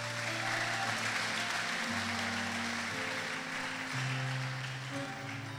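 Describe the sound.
A church audience applauds, a steady wash of clapping that runs under sustained musical chords, which shift a few times.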